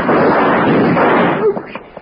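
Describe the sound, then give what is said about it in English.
A gunshot sounds in a radio drama as a loud, roaring blast that holds for about a second before dying away into quieter, broken sounds. “You thought you just shot him”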